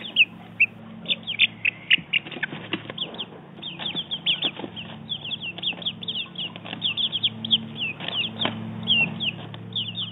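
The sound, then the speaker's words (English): Many high, rapid peeps from four-week-old chicks, overlapping in a busy, continuous chatter with bursts that grow denser toward the end, over a steady low hum. “That was the sound of our four-week-old chicks.”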